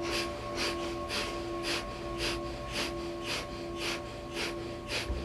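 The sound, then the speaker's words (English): Breath of Fire breathing: rapid, rhythmic inhales and exhales forced through the nose, forming a steady train of about ten short, even, breathy puffs over a faint low hum. “This one's called Breath of Fire. And this is a rapid inhale and exhale through the nose. It's rhythmic, and we pulse the navel with the breath. It sounds like this.”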